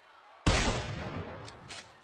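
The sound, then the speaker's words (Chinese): A single gunshot cracks out loud and sharp, then trails off in a long, decaying rumble, with no voices. “随着一声枪响，蔡之明打中了阿豪的心脏。”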